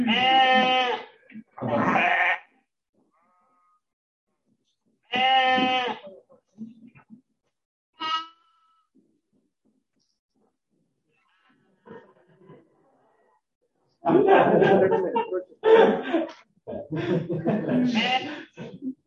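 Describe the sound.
Sheep bleating in short, wavering bursts separated by long silent gaps, with a cluster of several bleats near the end.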